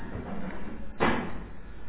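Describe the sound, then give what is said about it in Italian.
A heavy front door slams shut once, a single sharp thud in the middle of a quiet, steady background. “forse si è chiuso il portone.”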